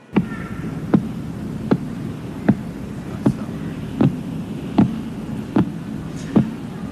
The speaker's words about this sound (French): ce qu'on vient d'entendre là, c'est une transcription sonore d'une observation radioastronomique d'un pulsar. Ce pulsar, il s'appelle PSR 0329 plus 54.